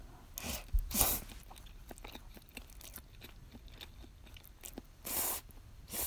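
Someone chews while eating cod roe pasta. Quiet, wet mouth sounds carry many small clicks and smacks, with a few louder, breathy bursts and no talking.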